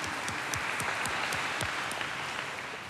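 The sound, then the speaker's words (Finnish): Congregation applause at a church mass, welcoming first-time attendees. The clapping is fairly faint but continuous, with several distinct individual claps standing out in the first half before it settles into an even patter. “Isot aplodit teille.”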